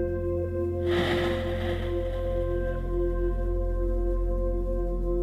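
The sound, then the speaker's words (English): A single deep breath during a guided chakra meditation rushes in abruptly and then trails off gradually over a steady low humming drone, with no talk. “Take a deep breath in and let it go.”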